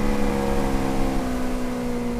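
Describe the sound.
Steady drone of a motorboat engine on an estuary: a continuous low hum with strong harmonics and no breaks, heard alone for the whole stretch.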